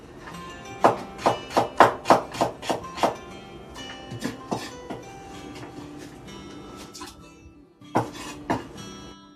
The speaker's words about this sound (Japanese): ちょっと料理しながら今お味噌汁を作ろうと思って